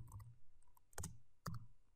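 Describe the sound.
Faint typing on a computer keyboard: a few sharp, separate key clicks with quiet gaps between them.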